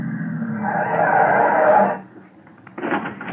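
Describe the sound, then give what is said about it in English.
A car driving at night toward a cemetery on Long Island gives a steady engine drone that swells slightly, then cuts away, followed by a brief, quieter burst of mechanical noise. “The next evening, I drove myself to the Hillcrest Cemetery on Sycamore Street out in Long Island, where the mangled remains of Remo Torch had been buried.”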